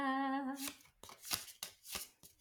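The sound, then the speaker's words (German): Shuffling of a deck of playing cards for a quartet card game about programming languages: several quick, papery riffling bursts follow one another, fairly faint and alone. “Hast du gemischt? Vielleicht sollst du auch nochmal mischen, damit du hier nicht schummelst.”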